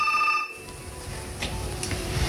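A telephone rings for an incoming call: a steady electronic ringing tone at the start that cuts off after about half a second, leaving low background noise.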